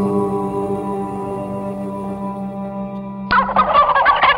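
A turkey gobbles in a sudden burst of rapid, warbling calls near the end, after a steady low, humming tone; no voices are heard.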